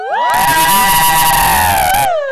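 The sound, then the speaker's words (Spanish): A crowd raises a loud, sustained uproar of shouting and screaming voices that holds steady for about two seconds, then breaks off abruptly. “¿Qué es ese griterío que se oye?”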